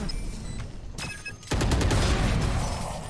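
A teleportation ability sound in a video game: after faint crackling pops and a brief lull, a sudden loud burst of rushing noise with rapid pulses hits and then sustains.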